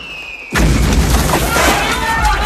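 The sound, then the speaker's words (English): Artillery shells explode around a field tent: a sudden heavy blast breaks in about half a second in, followed by a loud, sustained roar of rumbling, crackling noise that continues to the end. “The doctor drags the nurse down as shells rack the tent.”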